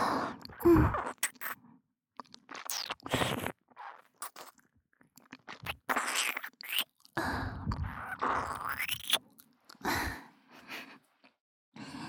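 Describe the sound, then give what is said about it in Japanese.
Wet ASMR ear licking with sucking mouth sounds, close and intimate, in irregular smacking and slurping bursts separated by short pauses. “吸って耳舐めるから”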